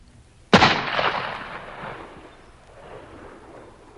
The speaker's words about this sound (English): Carter Drews was calm as he pulled the trigger of his gun.